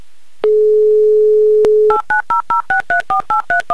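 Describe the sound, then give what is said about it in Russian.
A telephone number being dialed for a call: a steady dial tone sounds for over a second, then a click and a quick, evenly spaced run of short touch-tone keypad beeps at mixed pitches. “Прямо сейчас звоним.”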